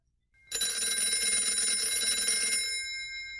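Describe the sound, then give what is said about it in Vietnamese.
An alarm clock rings in the morning to wake a sleeper. It gives a continuous, bright, rapid metallic ring that starts suddenly, lasts about two seconds and then stops, fairly quiet overall. “khi tiếng báo thức kêu lên”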